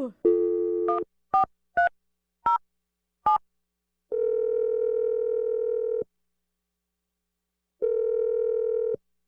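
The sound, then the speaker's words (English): A telephone number is dialed: a steady dial tone, then a few short dialing beeps, followed by two long, even ringing tones separated by silence. “I'm going to dial Scarlett's number.”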